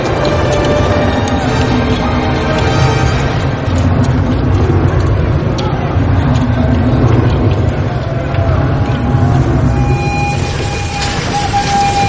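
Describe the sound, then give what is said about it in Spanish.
A passenger train pulls into a station where crowds are waiting, in a 2007 drama set near a mine. A heavy, continuous rumble stays loud throughout, and a high squealing tone rises above it toward the end. “Un tren de pasajeros llega a la estación, donde multitud de personas esperan su llegada.”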